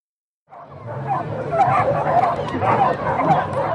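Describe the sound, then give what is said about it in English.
Excited dogs bark and yip at a dock-jumping event where they leap from a dock into a tank of water. The barking runs steadily over a dense wash of crowd noise, with voices mixed in. “This is the sound of happy dogs.”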